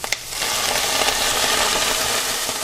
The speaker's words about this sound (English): I'm browning it in whole butter, so it's getting nice and toasty.